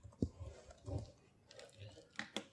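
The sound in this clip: Quiet typing on a computer keyboard, with a few scattered soft clicks spread across the moment and sharper taps near the end.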